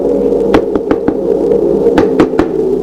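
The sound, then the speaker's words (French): Knocking comes in two quick runs of sharp, hollow raps over a steady low hum. The raps are loud and spaced irregularly, and no voices are heard. “Frappe encore une fois. Encore.”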